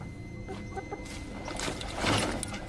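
Chickens clucking, a quiet run of many soft clucks and chatter that swells into a louder burst near the end.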